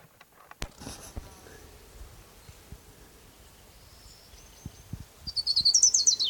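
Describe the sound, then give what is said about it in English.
Song of an orange-crowned warbler: a rapid run of many high, thin notes near the end that builds in loudness, preceded by quieter soft rustles and a few brief low thumps. “is Orange Crown Warbler number one.”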